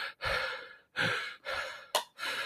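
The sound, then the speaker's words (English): Heavy breathing of a person out of breath after lifting a 35–40 pound dog, recreated out loud: a few long, loud, rasping breaths with a short, sharp gasp near the end, and no talk. “And it took me 20 seconds to catch my breath. It sounded a little bit like this.”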